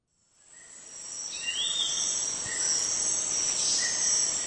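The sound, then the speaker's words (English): Rainforest soundscape recorded by scientists: a dense, steady, high-pitched insect chorus fades in and holds, with a few short bird calls over it and no voices. “That's the sound of a rainforest recorded by a group of scientists in an effort to gauge the health of”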